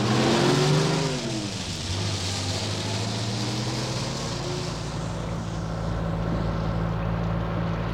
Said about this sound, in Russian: комиссар Мегре покинул приют утопленников в кабине десятитонки, которая с адским грохотом покатила по шоссе.